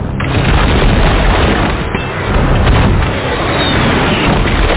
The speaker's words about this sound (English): Heavy artillery. Kills now.